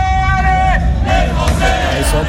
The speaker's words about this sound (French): les Bleus entendront peut-être les encouragements de leurs supporters les plus fidèles